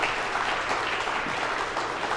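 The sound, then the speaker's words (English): Audience applause for a family: a dense, steady wash of many hands clapping, loud and unbroken from start to finish with no talk over it. “Let's clap with love for this fabulous family and for Finian.”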